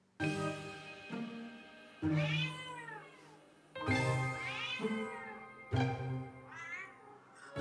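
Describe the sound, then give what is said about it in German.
Meows from a cat shut in its transport box on the way to the vet come in four drawn-out plaintive calls separated by short pauses, each with a clearly falling pitch. “in seiner Transportkiste auf dem Weg zum Tierarzt miaut er völlig anders, und zwar so.”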